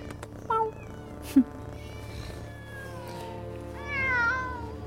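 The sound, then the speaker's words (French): Meowing from a crowd of about thirty cats: a few separate meows of differing pitch rise over a low, constant hum, including one short sharp cry and a longer wavering call near the end. “Oh mon Dieu, des chats ! Une trentaine de chats !”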